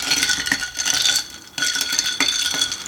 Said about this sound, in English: So, top it off with your seltzer. Give it a little bit of a stir.